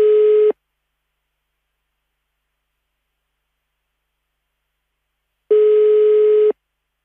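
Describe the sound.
An unanswered telephone call gives its ringback tone: two steady buzzing tone bursts separated by a long silence. The first burst is cut short and the second lasts about a second.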